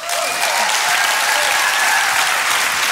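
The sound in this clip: Audience applause welcoming a speaker to the stage at a church service, a loud, dense wash of clapping that stays steady and unbroken throughout.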